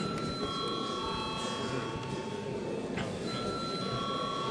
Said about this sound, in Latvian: lūdzu zvanu.